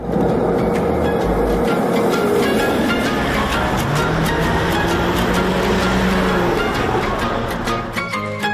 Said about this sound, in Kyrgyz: Эмне менен барасыз? Маршрутка. Маршрутка менен. Кеттик жүрүңүз.